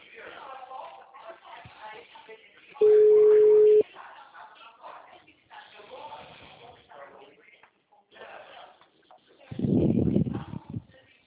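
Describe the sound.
One ringing tone on a phone call, a steady pitched burst of about a second that sounds over muffled, narrow-band talk on the line, with voices continuing before and after it.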